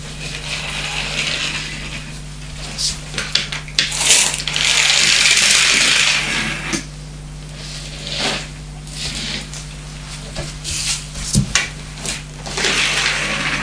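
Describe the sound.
A pull-back toy car being wound and released: scattered ratchety clicks and light rattles, then a louder whirring rush lasting about two seconds as it runs, followed by more sparse clicks and knocks.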